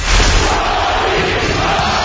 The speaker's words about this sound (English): A Russian crowd chanting the American's name in the 1980s? It could have happened.